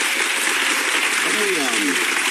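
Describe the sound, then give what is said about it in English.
A studio audience applauds on a TV talk show, a dense, steady wash of clapping that fills the whole stretch. Late on, a voice rises faintly above it. “She's fishing for anything, and the audience finally go, yeah, okay, let's help her out here. Let's give her a little applause.”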